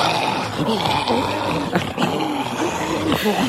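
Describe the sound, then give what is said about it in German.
Zombie growls from a jogging game app played over headphones: deep, guttural, voice-like snarls and groans that rumble on without pause at moderate loudness. “Bei einer App muss man zum Beispiel vor Zombies beim Joggen wegrennen.”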